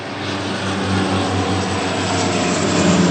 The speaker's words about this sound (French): d'importants moyens sont déployés. 4 Canadair et un hélicoptère Chinook.